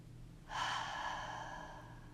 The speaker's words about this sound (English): a deep breath out. Let's try that again. Breathe in and breathe out.